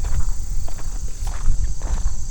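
Footsteps walking over the ground above a neighborhood's buried watershed, a run of soft, steady low thuds under a constant high-pitched whine.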